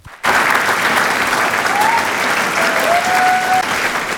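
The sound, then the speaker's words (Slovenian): Loud, sustained applause from a standing audience in a packed hall at the Kosovel cultural centre honours actors, singers and musicians after a staged poetry performance. Clapping bursts in after a brief silence and holds steady, with a few thin whistles above it. “Stoječimi ovacijami je občinstvo, ki je dodobra napolnilo dvorano v Kosovelovem domu, nagradilo igralce, pevce in glasbenike, ki so na odru interpretirali Kosovelovo poezijo.”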